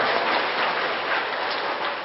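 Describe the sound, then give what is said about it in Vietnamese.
Audience applause fills a hall, welcoming seven people at a Buddhist talk: dense, steady clapping, continuous and even in loudness for the whole stretch, with no voices above it. “Hoan nghênh cho bảy vị Phật tương lai gần kề.”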